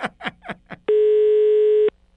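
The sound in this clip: A telephone ringback tone sounds as a call is placed: a few short falling-pitch bursts, then one steady, single-pitch tone lasting about a second before it stops.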